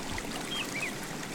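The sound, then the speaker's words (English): River water flowing along the Avon River in Stratford, heard as a soft, steady rushing hiss throughout, with a few faint high chirps above it. “Hear that? That's the sound of your mornings at River Gardens Retirement Residence. Nestled along the Avon River in Stratford, next door to Gallery Stratford”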